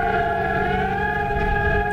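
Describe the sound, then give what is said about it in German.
A civil defence warning siren sounds during Germany's nationwide warning-day test in Hannover, a loud, continuous, steady wailing tone that holds throughout with no voices over it. “Ja, die Sirenen, auch unsere Handys werden dann Alarm schlagen, denn es ist Bundeswarntag 2026.”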